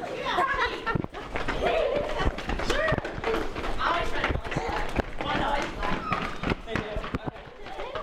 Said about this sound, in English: You could tell the girls were excited to run where they're normally told to walk and to slow down.